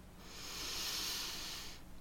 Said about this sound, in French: Laisse tes épaules descendre vers la terre également. Prends ici une longue inspiration par le nez,